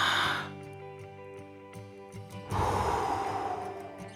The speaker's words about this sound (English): take a couple of deep breaths, and prepare ourselves for a little meditation.